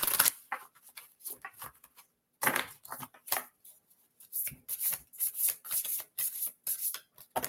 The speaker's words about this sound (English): I'll pull a card for each of you.